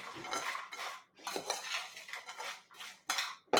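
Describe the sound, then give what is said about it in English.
Food tossed in a bowl with cinnamon, salt and pepper gives a few bursts of scraping and clinking from utensils against dishware. The bursts are moderately loud, separated by short pauses, with no talk. “And I am going to sprinkle this on here. And I am going to toss it.”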